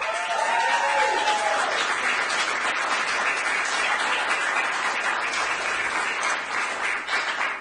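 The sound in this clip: Audience applause for the Greater Miami Youth Symphony before a live studio audience at the WDNA Jazz Gallery, a dense, steady wash of clapping that carries on throughout at an even level.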